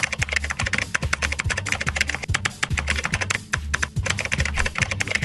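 Fast typing on a computer keyboard while chatting online: a rapid, irregular stream of crisp key clicks, steady in level and heard alone without voices.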